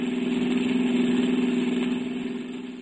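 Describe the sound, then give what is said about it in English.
Car engine running at idle, a steady low droning hum with a faint rhythmic pulse that eases slightly toward the end. “I walked out, went back to my car.”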